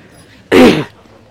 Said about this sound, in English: if you're ready, we need a cough drop.